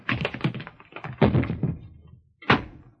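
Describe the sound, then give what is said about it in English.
Someone trips over their own feet and falls in a radio drama scene: a scramble of quick thumps and bumps, a second cluster of thuds, a short pause, then one final heavy thud. “Tripped over my own feet. I could have had her, but I tripped over my own feet.”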